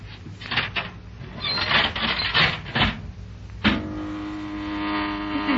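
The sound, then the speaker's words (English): An old, poorly soundproofed elevator goes up: clattering, rubbing mechanical noise gives way to a sharp clunk, then a steady droning motor hum that runs to the end. “Well, it goes up. That's all I want for any elevator right now.”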